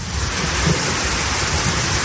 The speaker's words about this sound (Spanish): Se pueden repetir hoy escenas como esa tromba de agua que ayer inundaba las calles de Sevilla que escuchabas